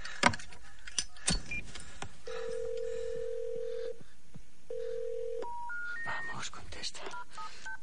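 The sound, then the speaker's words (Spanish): Telephone keypad tones as a number is dialed on a phone by someone trapped in a coffin: a few soft clicks and short tones, then two long steady tones, then a quick rising run of short beeps. “Marca un número y se lo lleva al oído.”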